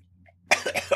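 A few quick, rough coughs from someone with something caught in the throat, coming in a short cluster after a brief near-silence.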